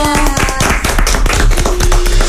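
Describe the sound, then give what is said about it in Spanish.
Applause for children from an arts and culture school: many quick, sharp claps, fairly loud and rhythmic, with steady musical tones sounding underneath at the start and again near the end. “¡Aplausos! ¡Gracias!”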